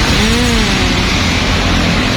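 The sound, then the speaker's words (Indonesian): Road traffic on a busy main road, Jalan Raya Bandulan: a loud, continuous wash of car engine noise with a passing engine hum rising over it, steady throughout and without voices. “Jadi dengan keadaan lalu lintas seperti ini di jalan raya Bandulan,”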